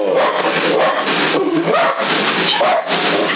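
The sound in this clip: An agitated little dog barks in repeated yapping bursts over a CB radio transmission, the sound thin and band-limited, blending into constant radio hiss and noise.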